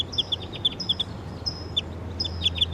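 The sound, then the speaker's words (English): A wild bird calls in the distance with quick, high, thin chirps in short repeated bursts over a low, steady background hum. “I hear the wild bird calling in the distance.”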